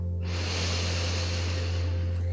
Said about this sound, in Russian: Вдох.